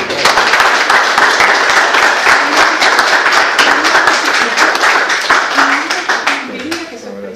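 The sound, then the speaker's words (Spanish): Audience applause during a class: dense, loud, sustained clapping that holds steady for several seconds, then thins and fades toward the end, with voices faintly audible beneath it. “Le damos un aplauso.”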